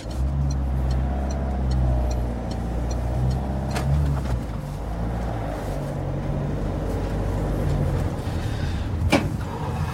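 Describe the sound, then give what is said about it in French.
A car driving on a road, with a steady low engine drone running throughout and a brief sharper whoosh near the end; no one speaks. “Prends pas le périph. Il y a encore plein de bouchons à cette heure. Oh, tu veux prendre le volant ? Non, c'est bon. Tu sais bien. Moi, je conduis, mieux je me porte.”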